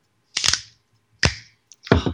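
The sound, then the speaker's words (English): A Coors Light beer can being cracked open gives three sharp, loud bursts, each trailing into a brief hiss, with a tiny click between the last two. “Crack open another Coors Light for that one. Is that number four on the night? This is number four on the night, actually.”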